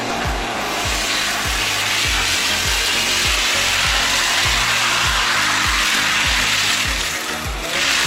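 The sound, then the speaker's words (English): A chain link fence making machine runs with a steady, rapid train of low mechanical clacks, many in even rhythm, over a continuous loud hissing whir. “A chain link fence is constructed in just seconds by two parts of the same machine that are moving in different directions.”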